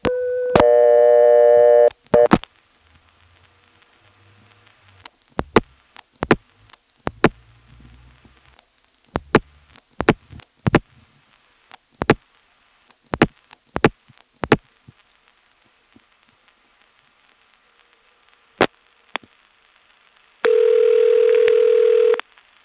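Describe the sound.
Long-distance telephone line tones after dialing 411 to New York: a steady tone burst opens, then a long scattered series of sharp clicks over near silence, and a second steady tone burst near the end.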